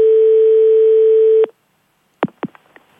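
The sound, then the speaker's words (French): A telephone dial tone plays after hanging up: a steady, loud, unbroken hum that holds for about a second and a half, stops abruptly, and is followed by a few sharp handset clicks. “Non, on raccroche. Essayez en posant le téléphone sur le combiné pour voir.”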